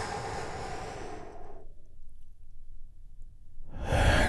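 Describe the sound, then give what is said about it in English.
A slow, deep breath during a guided breathing exercise: an audible airy inhale, a quieter held stretch, then a strong breathy exhale at the end. “Take another big, deep, healing breath with me all together. Here we go. And”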